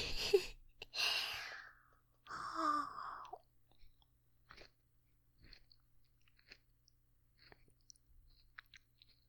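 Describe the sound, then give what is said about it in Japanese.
Chewing a mandarin orange, with two louder moist bursts at first, then many faint, soft mouth clicks and smacks in the quiet. “いいですね、みかん。おいしい。甘いですね、みかん。おいしい。”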